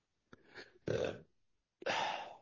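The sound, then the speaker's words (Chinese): Burping done on purpose as a practiced exercise, three short, faint, throaty belches separated by brief pauses, with the last one the longest. “你看我打嗝哈，我自己私下练，自己练比这打嗝更多。”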